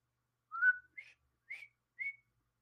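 A person whistling a short tune of four clear, high-pitched notes with brief gaps between them, loud and alone with no talk.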